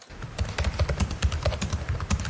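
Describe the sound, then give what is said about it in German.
Rapid typing on a laptop keyboard, with many light, crisp keystrokes clicking in an uneven, quick rhythm and no voices. “tippt auf der Tastatur seines Laptops”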